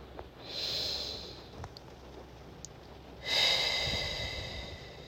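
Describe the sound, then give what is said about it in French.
Slow breathing during a guided relaxation exercise, a soft, airy inhale followed later by a longer exhale, two gentle noisy swells of breath, faint and unaccompanied by talk. “Inspirez. Expirez. Une deuxième fois.”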